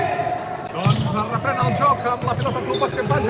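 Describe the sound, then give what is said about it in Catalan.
A basketball dribbled on the court during a game, a handful of dull, rhythmic thuds running beneath a commentator's steady talk. “Deixa botar la pilota”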